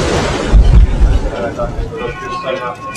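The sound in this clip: Shaft hoist cage ascending in the Kłodawa salt mine at about six metres per second: a deep mechanical rumble with a few heavier thuds early on, easing into a lower drone with a faint steady whine.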